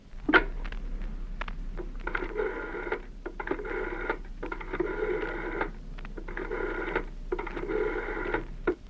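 A telephone rings in a home in a dramatic scene. The ring comes in repeated, evenly spaced bursts of bright, buzzy tone over a low steady hum, with no talking.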